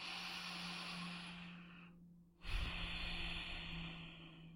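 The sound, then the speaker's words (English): A single slow, deep breath, long and airy, with a brief hush partway through, heard softly on its own over a faint steady hiss. “there's always time to breathe. So let's take a breath.”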